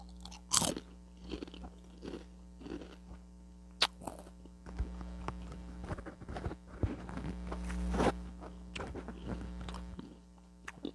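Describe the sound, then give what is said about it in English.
Someone crunches and chews a chip, with many irregular, moist crunches and bites over a faint, steady low hum, and no talking. “Got to eat another chip.”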